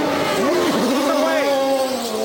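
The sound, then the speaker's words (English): An IndyCar race car pulls out of its pit stop, its engine whining loudly and continuously, with the pitch wavering up and down as it accelerates. “with Tony Kanaan just pulling out of his pit stop.”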